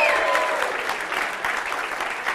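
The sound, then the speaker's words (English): An audience claps for a performer in a dense, even wash of applause that holds steady from start to finish. “You guys can clap. Clap for him.”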